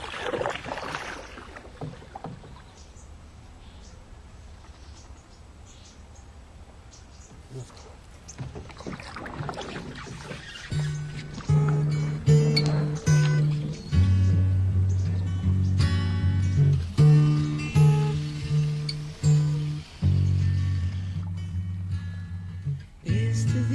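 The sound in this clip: Oar strokes of a rowed boat at Glaciares: repeated splashing pulls through the water over a steady wash of background noise, the strokes growing louder and more frequent in the second half.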